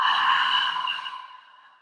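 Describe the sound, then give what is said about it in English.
A single long, deep exhale from a breathing exercise, a steady breathy rush of air that starts full and gradually tapers off into silence. “Just take a deep breath. From the bottom of your diaphragm, push all the air in and exhale.”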